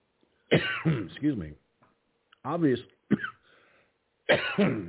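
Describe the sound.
Throat clearing and coughing from someone with a tickle in the throat: several rough, raspy bursts in quick succession with short pauses between them, fairly loud, with no other sounds.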